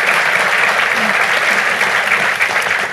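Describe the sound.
An audience applauds to welcome a speaker to a talk in Melbourne, a dense, even wash of clapping that holds steady throughout.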